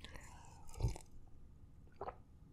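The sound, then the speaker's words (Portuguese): A quiet sip and swallow of water mixed with a powdered drink: two soft, brief mouth sounds, a fuller gulp followed by a lighter one. “Entra, deixa eu tomar um gole disso aqui.”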